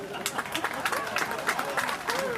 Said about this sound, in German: Ist der Moment für Applaus?